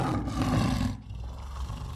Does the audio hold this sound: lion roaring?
yes